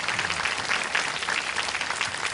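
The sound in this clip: An audience applauds to welcome guest Rabbi Jonathan Cahn. The clapping is brisk and even, a steady crackle of many hands with no break.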